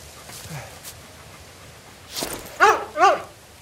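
A dog that has slipped away on a walk gives two high, wavering yelping whimpers close together, just after a brief breathy burst, against quiet outdoor background.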